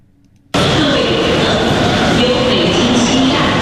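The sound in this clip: Steady crowd hubbub fills Beijing West station's second-floor waiting hall during the National Day holiday as passengers arrive with luggage. A dense, loud wash of indistinct voices and movement starts abruptly and continues without a break.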